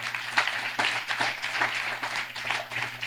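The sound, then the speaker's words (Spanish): A church audience applauds the choirs, faint scattered clapping in uneven bursts over a low steady hum. “Fuertes los aplausos y a los coros también.”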